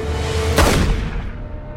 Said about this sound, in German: Verdammt, schießen Sie!